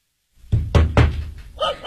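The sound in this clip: Three loud, sharp knocks on an apartment door, heavy and evenly spaced, each one a short thudding strike, followed by a brief, quieter trailing sound.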